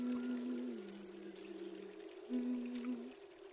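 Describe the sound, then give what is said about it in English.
Soft, steady trickling of water as hands are washed at a small waterfall, faint and continuous, with a low sustained tone running beneath the flow. “washes her hands at a small waterfall.”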